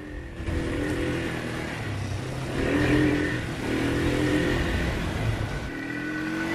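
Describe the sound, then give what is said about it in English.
A quad bike engine revs as it climbs a steep, scree-covered incline, a steady mid-pitched drone that swells slightly midway and holds without pause. “A quad bike is ridden up a steep, scree-covered incline.”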